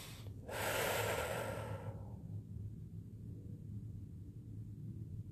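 One quiet, airy inhalation as a person takes a breath, rising into a soft rush of air for about a second and a half and then fading back into low background hum.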